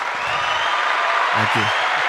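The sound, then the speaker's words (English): A recorded applause sound effect plays from a soundboard button during a casual chat about deer hunting. It is a steady wash of crowd clapping, and a voice briefly speaks over it near the middle. “I'm going to have to hit this applause button again.”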